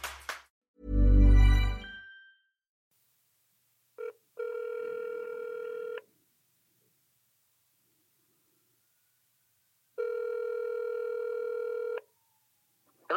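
A telephone call is placed and rings: a brief burst of noise, then two long, even ringback tones separated by a stretch of silence.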